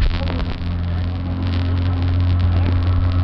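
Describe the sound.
A car engine idles slightly high, giving a steady, even low drone with a constant hum that neither revs nor drops off.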